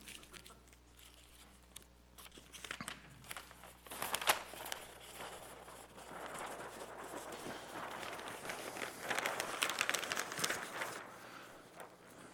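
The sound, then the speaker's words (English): Paper rustles and crinkles as a cartoon is unwrapped, a steady scratchy crackle with busier bursts of handling throughout. “I'm going to unwrap it first.”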